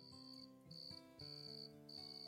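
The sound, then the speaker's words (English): Crickets chirp on a humid night along a road, a faint high trill rising in four bursts separated by short pauses, with no voices. “Cricket chirps rose into random choruses, then fell silent, only to rise again with the regularity of waves washing ashore.”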